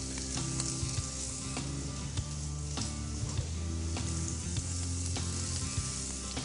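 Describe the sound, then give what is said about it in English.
Bacon-wrapped peppers sizzle on a hot grill, giving off a loud, steady hiss of frying fat dotted with many sharp crackles and pops that runs unbroken throughout. “You wanna hear that sizzle, you wanna hear that char. You want a hot grill, not medium, not low.”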